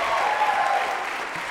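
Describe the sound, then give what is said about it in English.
Audience applause for a pair of collegiate shag dancers at a swing dance event: a lively, sustained wash of many hands clapping, fairly loud and steady. “Big round of applause, Jim and Nikki.”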